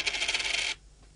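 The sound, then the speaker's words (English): A coin dropping onto another coin on a desk gives one bright metallic ring that shimmers for under a second, then cuts off into near silence. “That's the first coin. That's the second coin. Fell on top of the first coin.”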